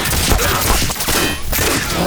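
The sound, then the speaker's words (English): Sustained gunfire, a gun shot repeatedly until its magazine is empty, forms a loud, dense crackling barrage with no clear gaps between shots. “Trillo stood, shooting until the clip was empty”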